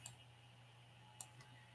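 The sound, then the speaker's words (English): Computer mouse right-clicks, two faint, sharp ticks about a second apart, the second followed by a softer tick, over a low, steady hum. “Oh, you could just right click on him and use the icon.”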